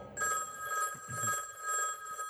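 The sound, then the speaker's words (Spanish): A telephone rings in a house in North Yorkshire, England. The ringing is a steady, bright electronic tone that pulses in loudness over a couple of seconds, with no voices. “Una noche, el teléfono suena en la casa de Lord Armstrong, en el norte de Yorkshire, Inglaterra.”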